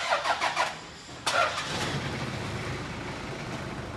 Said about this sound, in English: it's the sound of a Toyota engine, frankly, inside the Chevy Bel Air.